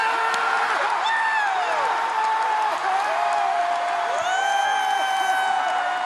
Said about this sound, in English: I always love an audience where you have the one person in the audience who loves to go, woo! Whenever you have an audience, yeah, it's nice to have the woo.